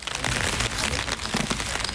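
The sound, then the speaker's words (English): Rain falls steadily in a large cemetery in Magdeburg, Germany, making a dense, even hiss of patter with no clear individual drops and no talking. “It's raining”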